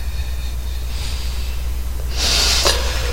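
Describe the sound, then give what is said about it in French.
Slow breathing exercise with four-second counts, a faint breath in, then a pause and a louder, airy breath blown out near the end over low background hiss. “Donc, on inspire. 4 secondes. Vous bloquez 4 secondes. Et vous soufflez.”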